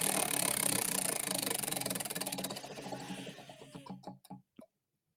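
A prize wheel spins during a golf betting show's punishment game, its rapid steady ticking slowing into widely spaced clicks before stopping.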